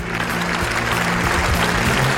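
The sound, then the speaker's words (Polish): Applause greeting Pope Leo XIV in the Paul VI Hall at the Vatican during an audience for members of the media: a steady, dense round of clapping that continues at an even, fairly loud level throughout. “Papieża w auli Pawła VI przywitano brawami.”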